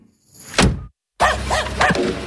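A dog barking: a dull thump, a short silence, then a few sharp, loud barks in quick succession.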